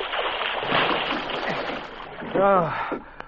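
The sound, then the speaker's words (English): Splashing water from a young swimmer's powerful strokes churns steadily, with a brief voice rising near the end. “watch how fast that young Indian swimmer can swim. Why, he's just like a fish. Look at the power in his strokes. And here he comes back already.”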